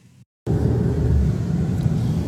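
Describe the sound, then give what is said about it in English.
Steady low rumble of a vehicle in motion, heard from inside during a road journey in Uganda. After a short quiet gap at the start, the drone runs on evenly to the end. “We're now traveling in the vehicle with Brother James Katumba”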